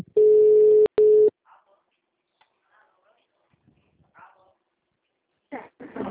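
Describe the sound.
A telephone rings on an outgoing call: one steady, low buzzing tone broken by a brief click, then near quiet with faint scattered noises before a voice answers.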